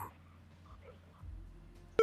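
A telephone beep sounds on a line during a radio call-in: a short, loud tone at a mid pitch cuts in at the very end, after a stretch of near silence with only faint low hum.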